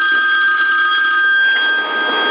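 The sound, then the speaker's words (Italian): A mobile phone rings with an incoming call: a steady, continuous electronic ring that lasts the whole clip, thin and band-limited as if carried over a CB radio channel, with no talk. “Aspetta che mi sta chiamando mia moglie”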